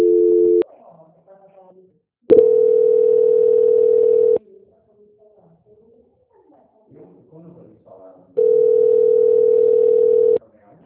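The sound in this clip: Telephone tone during a call transfer to a quality-control line: a steady mid-pitched tone in three bursts, the first cut short and the next two lasting about two seconds each, separated by pauses holding only faint low murmurs.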